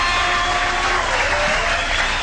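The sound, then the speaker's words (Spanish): Applause for a Latin music orchestra member, a steady, dense crowd clapping that stays fairly loud and even throughout, with no talk over it. “Y un aplauso bien grande para Héctor, vaya que son. Eso es. Vaya el aplauso”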